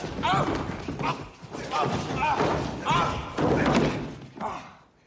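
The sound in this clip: A door slams shut, heard as several heavy, dull thuds in a row mixed with people's startled exclamations and voices.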